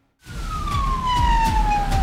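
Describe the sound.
An ambulance siren on an emergency call in Bolu sounds loud and continuous, a single wailing tone that glides slowly downward in pitch over about two seconds, with no talk.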